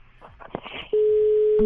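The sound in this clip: Telephone busy tone after the other party hangs up: a loud, steady, unbroken beep takes over right after a brief burst of speech and holds to the end.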